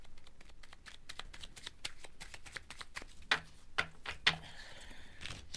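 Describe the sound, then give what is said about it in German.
A pack of playing cards being carefully shuffled in a circus caravan: many soft flicks and taps in a loose rhythm, with a few sharper snaps and a brief papery riffle near the end. “als sie einen Packen Karten aufnahm und sorgfältig zu mischen begann.”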